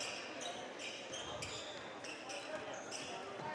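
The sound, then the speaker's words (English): A basketball is dribbled on a court during a high school boys' game, a few quiet bounces at an uneven pace under a faint background of voices. “The Blazers doing a lot of dribbling outside of three.”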